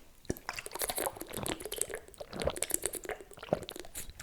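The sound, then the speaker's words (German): Someone quietly sips a drink, with wet slurping and swallowing and many small liquid clicks and squishes in an irregular stream. “Ich trinke erstmal einen Schluck.”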